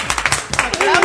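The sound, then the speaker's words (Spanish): A few people clap briefly in a quick, uneven patter of sharp hand claps. The clapping gives way to a voice speaking. “Un aplauso para él. ¡Hombre, un aplauso, claro!”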